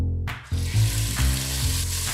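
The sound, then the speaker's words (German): Finely diced lamb hearts fry in clarified butter with a loud, continuous sizzle, a dense crackling hiss that holds steady throughout, briefly swelling as the pan is stirred. “Die fein gewürfelten Lammherzen werden in Butterschmalz angebraten.”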